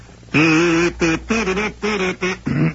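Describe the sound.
A voice imitates a duck with five nasal, buzzing quacks in quick, uneven succession, loud and heard alone.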